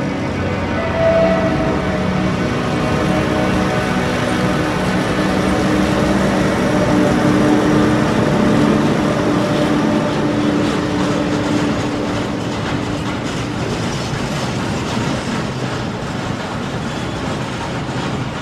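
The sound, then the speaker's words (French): Train rolling on a steelworks factory railway in Lorraine, a continuous loud rumble with the rhythmic clatter of wagons over rails, unbroken throughout. “Vous voyez, ça c'est la voie ferrée d'usine. Voilà, ça c'est des rails.”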